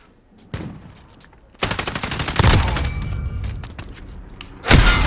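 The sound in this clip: Video game gunfire, with dense bursts of rapid shots from a weapon, loud and sharp, starting with a brief burst, then a long sustained volley and a final louder burst at the end.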